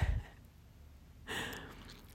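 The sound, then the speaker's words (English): A deep breath taken in and let out, a faint soft inhale followed by a louder, airy, unvoiced exhale, with no talking. “Take a deep breath. Exhale.”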